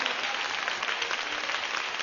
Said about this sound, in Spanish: Démosle un aplauso al Señor, hermana, hermano.